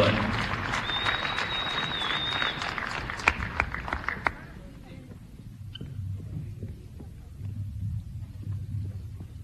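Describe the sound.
Applause at an Auburn High School sports night honoring the fight against cancer, loud clapping with a few sharp cracks for about four seconds, then cutting off to a low, quiet rumble.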